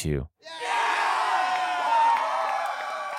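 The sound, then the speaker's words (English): A city crowd cheers the arrival of Confederate cavalry in 1862. A brief voice opens, then a sustained, loud roar of shouts and whoops holds to the end. “The city's inhabitants cheer their arrival on June 16,”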